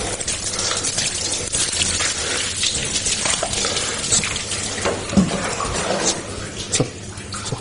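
Water is poured and splashes continuously during the ritual washing of a dead body, a dense, steady gushing that carries on throughout with only slight surges.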